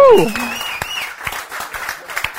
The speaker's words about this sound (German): Gib ihm einen Applaus.